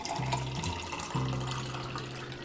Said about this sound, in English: they poured me a glass of water